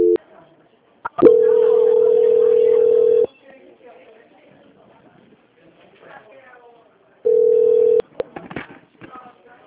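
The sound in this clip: A telephone tone during a call transfer: two long, steady, fairly loud beeps, the first lasting about two seconds and the second under a second, separated by a stretch of faint background noise.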